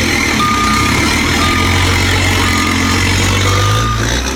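A loaded vehicle's engine rumbles loudly and steadily, with a few short, high electronic beeps sounding over the drone.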